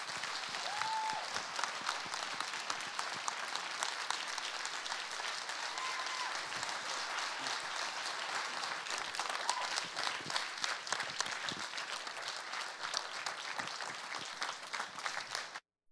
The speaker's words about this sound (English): I'd like you to put your hands together and welcome my pastor to this platform.